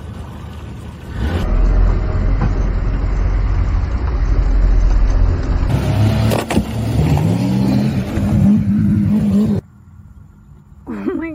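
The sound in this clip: A boat engine roars loudly for about eight seconds with surging revs, then cuts off abruptly, leaving a much quieter background.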